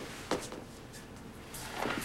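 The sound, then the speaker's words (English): A door being locked: faint mechanical clicks, with one sharp click near the start and a short cluster of clicks and a clunk near the end, over a low background. “Get out of here. Lock the door.”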